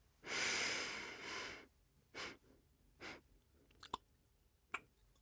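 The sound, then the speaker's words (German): Slow, deep breathing during a guided breathing exercise: one long, loud airy breath drawn out over more than a second, followed by quieter, shorter breaths and a couple of small clicks, with no voices. “Ausatmen sieben. Einatmen vier.”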